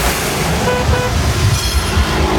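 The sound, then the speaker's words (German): Car horns honk in a traffic jam on Munich's Mittlerer Ring, a few toots rising over a thick, constant rumble of traffic noise. “Stau am Mittleren Ring.”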